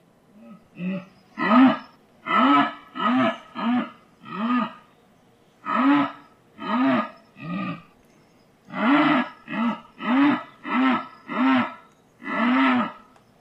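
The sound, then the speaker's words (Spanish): A jaguar roars in a rhythmic series of deep, rasping, sawing grunts. The grunts come in three bouts separated by short pauses, each bout a steady train of loud, evenly spaced strokes with no voices. “Un sonido de un jaguarete que nos pasaron.”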